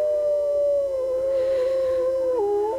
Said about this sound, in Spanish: ¿Escuchamos unos lobos? ¡Au!